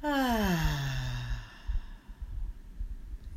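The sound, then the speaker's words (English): A deep exhale during a guided breathing exercise comes out as a long voiced sigh that falls steadily in pitch, then fades into a few soft, breathy puffs. “And our third and final breath together. Breathe in and out.”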